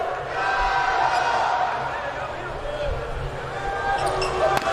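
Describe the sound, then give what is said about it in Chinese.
Volleyball serve by outside hitter number 42 in a match: a dull ball strike under a constant roar of crowd noise. “42号主攻的发球”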